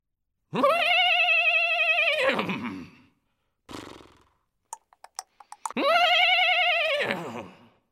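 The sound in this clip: A horse named Alazao whinnies loudly twice, each neigh long and quavering. Between the two calls come a short rustle and a quick run of sharp clicks.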